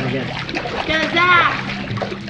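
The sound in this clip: Children splash water while racing toy boats in a water table, with choppy splashes and sloshing under their lively overlapping voices.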